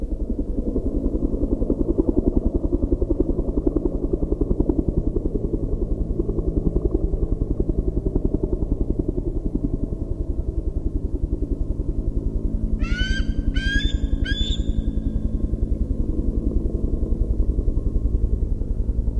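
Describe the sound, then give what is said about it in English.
Bird calls echoing near a hill: a short burst of three or four high, ringing notes near the end, each trailing off briefly, over a loud, steady low rumble that runs throughout. “So you can hear a little bit of echoing of the call from the bird, which suggests that it's near a hill or it's near something.”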